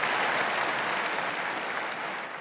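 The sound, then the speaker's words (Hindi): Applause honouring three new blesseds: a dense, continuous wash of clapping from a large crowd, steady throughout and easing slightly at the end. “तब संत पापा ने ताली बजाकर तीनों नए धन्यों को सम्मानित किया।”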